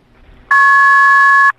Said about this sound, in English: It sounds like caller ID in the background. You know, like caller ID, call waiting.